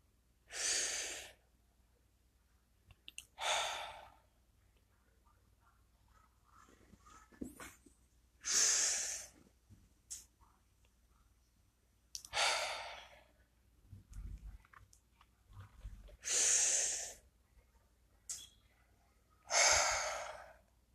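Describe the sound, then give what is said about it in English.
Three slow, deep breaths, each a loud, airy inhale followed by an exhale, separated by long quiet pauses, with no talking. “Let's get into a comfortable position. Let's take three deep breaths.”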